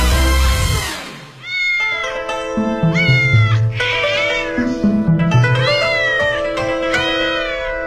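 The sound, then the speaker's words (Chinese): A cat at the Forbidden City palace in Beijing meows loudly several times. The drawn-out, wavering calls rise and fall in pitch, and one stretches into a whining caterwaul. “想跟您聊聊最近特别火的网红故宫里的猫。”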